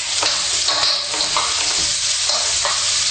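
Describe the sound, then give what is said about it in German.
Onions sizzle in oil in a pan set to about half heat, giving a steady, bright hiss with a few soft stirring scrapes and no talk. “Geben wir alle hinein. Und es soll ungefähr halbe Hitze haben. Es sollte nicht allzu heiß sein. Sie sollten goldbraun werden, die Zwiebeln, und eben nicht ganz schnell verbrennen.”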